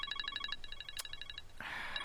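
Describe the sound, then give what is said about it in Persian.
A phone rings with an electronic ringtone: a rapid run of short, high, evenly spaced beeps, broken by a sharp click, then giving way to a louder, noisier burst of sound. “در این وقت باز کی از زنگ دارم؟ مادرم است.”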